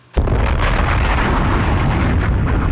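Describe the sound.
A bomb explosion sound effect: one sudden, loud blast erupts, then a dense, steady roaring rumble holds at full strength until the end.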